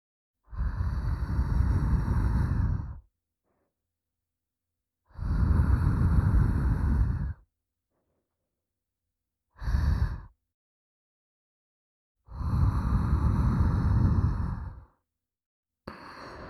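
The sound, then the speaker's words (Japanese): Gentle breaths blown into an ear, like blowing on hot food to cool it. Three long, soft whooshing exhales and one short puff are separated by silence, and another begins at the end. “ふうふうしてあげる。熱いもの冷ますとき、ふうふうするでしょ？”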